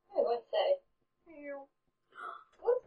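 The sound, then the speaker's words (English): A person's voice imitates a tiny black kitten's meow with a soft, drawn-out, tonal mew. Short bursts of speech come before and after it, and the whole clip is fairly faint. “There's a tiny black kitten that you might have recognised. Meow.”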